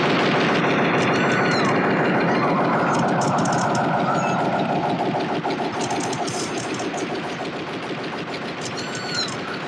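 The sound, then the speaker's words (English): Rapid, sustained machine-gun fire from a robot repeatedly shooting a man in a film scene, a dense continuous rattle over an engine-like drone, loud throughout with no pause. “he's supposed to be dead and the thing just keeps shooting him”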